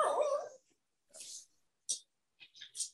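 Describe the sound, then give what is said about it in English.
A dog makes several short, high-pitched sounds in separate bursts, with silent gaps between them and no talk. “I don't know this damn dog getting on my nerves.”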